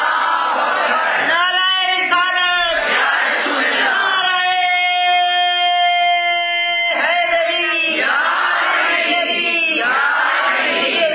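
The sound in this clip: A large crowd shouts Allahu Akbar in answer to a takbir call at a religious gathering. It is a loud, continuous roar of many voices, with a sustained unison chant in the middle.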